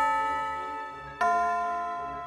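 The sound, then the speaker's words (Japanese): A chime rings with bright, sustained bell-like tones. One note is already sounding and fading when a second note is struck about halfway through, then slowly dies away. “チャイムが鳴ったね。このチャイムが鳴ったってことはもうすぐ終わりの時間だよ。”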